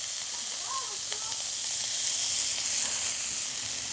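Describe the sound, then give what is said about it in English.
Onions, carrots, garlic and peppers sizzle in a pan as they caramelize and sweat down, a steady bright frying hiss that swells slightly midway, with a few faint clinks and no talk. “So we're letting the onions caramelize a little bit. We're not getting caramelized onions, but we just want to get some caramelization and bring out the natural sugars. The carrots are also sweating down.”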